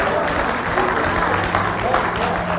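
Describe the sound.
Dense audience applause, steady and continuous from start to finish, with a few voices audible underneath the clapping.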